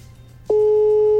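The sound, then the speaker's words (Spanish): A telephone busy signal after redialing: a loud, steady tone begins about halfway through and holds unbroken to the end, with no voices. “Pues, bueno, lo voy a marcar otra vez.”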